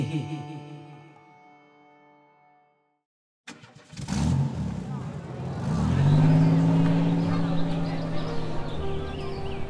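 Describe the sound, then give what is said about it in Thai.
A motorcycle engine starts up and runs along a quiet town road in Nan province, Thailand, after soft tones end and a brief silence, its drone rising in pitch and then holding steady. “บนถนนในตัวเมืองรองอันเงียบสงบอย่างจังหวัดน่านหลังจากไปจ่ายตลาด ชัดเจน กำลังขี่รถมอเตอร์ไซค์กลับไปยังร้านอาหารของเฮือนป้ออุ้ย”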